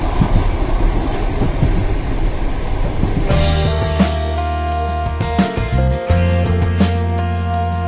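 A train rumbles on its rails in a broad, noisy roar for about three seconds, then a loud, tonal radio station jingle takes over and carries to the end.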